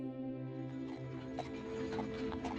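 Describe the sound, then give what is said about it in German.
Faint, irregular hoof clip-clops from a horse-drawn carriage setting off. They sit over a steady, humming tonal backdrop, and the whole sound is quiet. “Die Kutsche fährt los.”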